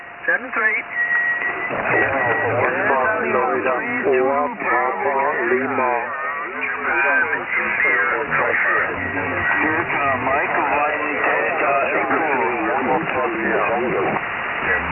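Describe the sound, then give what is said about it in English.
A pileup of many amateur radio stations calling Radio Caroline at once, heard through a radio receiver. Muffled, band-limited voices overlap in a continuous jumble, with faint steady whistling tones running through them. “Yeah, there's a lot of stations calling in there, Golf Bravo 55, Radio Caroline. A lot of stations calling.”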